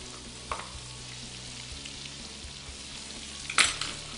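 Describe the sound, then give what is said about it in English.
Food sizzles in a frying pan with Parmesan as it is stirred, a faint, steady crackle broken by two sharper scraping accents, the second the loudest. “And stir. A little more Parmesan.”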